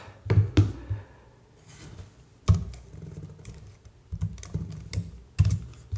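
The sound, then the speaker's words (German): Typing on a computer keyboard, with irregular bursts of clicking keystrokes separated by short pauses, fairly quiet and with no one talking. “Tippen, Frage gucken, gleichzeitig in die Tastatur finden.”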